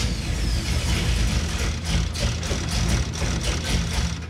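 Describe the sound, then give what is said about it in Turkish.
A car engine is cranked by its starter while trying to start, producing a loud, continuous grinding drone with a fast rhythmic chugging pulse that grows more distinct toward the end. “Bu sefer bayağı yaklaştık sanki. Marş basınca bir kez yakıt pompala sonra da yavaşça gaza bas.”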